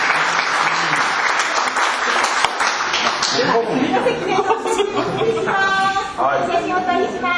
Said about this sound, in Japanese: どうぞ大きな拍手でお願いします。